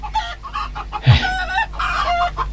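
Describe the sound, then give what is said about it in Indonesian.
Chickens clucking in a farmyard: many overlapping throaty clucks and short calls at a moderate level, over a steady low hum. “Coba kau bantu bapak mengurus ayam-ayam ini”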